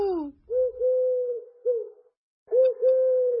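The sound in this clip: Bird cooing: a few steady, low, soft coos in two short groups with a brief silent gap between them, then a final pair of coos.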